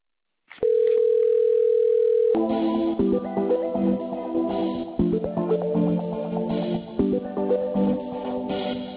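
A telephone line tone plays while the caller waits to be connected to a call-centre adviser. A single steady tone sounds for about two seconds, then a thin, tinny melodic hold tune follows.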